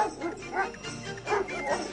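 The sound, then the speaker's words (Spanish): Sled dogs bark and yip as a team pulls a sled into a camp. Overlapping barks and higher yelps come in a few uneven surges, fairly loud throughout. “Nada habían acordado con la muchacha sobre el significado de los ladridos. Un momento después, Lluvia Hembra llegaba al campamento con un trineo tirado por perros.”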